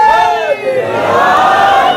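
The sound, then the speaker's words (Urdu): A crowd shouts a religious slogan together in unison, their voices loud and sustained with a ringing, chant-like pitch that holds and shifts across the phrase. “انہاں لائیں نعرہ مل کے نعرہ”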